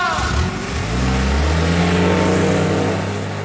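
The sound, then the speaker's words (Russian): Car engine roaring as the vehicle speeds off, kicking up a cloud of dust: a loud, sustained revving whose pitch climbs steadily as it accelerates, with no voices. “Машина внезапно взревела и, подняв тучу пыли, унеслась.”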